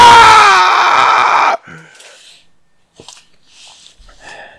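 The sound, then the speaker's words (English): A voice imitating a video game character who is strapped in front of a fireplace and screaming. One loud, raspy, sustained scream lasts about a second and a half, then cuts off abruptly and gives way to faint breathy mouth noises. “strapped there in front of the fireplace just starts screaming, and it does a quick zoom right into his face, and he's just screaming.”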